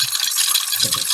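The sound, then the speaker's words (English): Coins rattle through a coin machine, including a foreign coin. A bright, continuous metallic jangle and clatter holds steady at high volume for about a second. “Sound like a foreign coin. Yeah. It sounds like every coin goes down a Plinko slide.”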